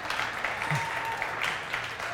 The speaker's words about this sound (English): Someone just cheered because in first service I couldn't get it to stick.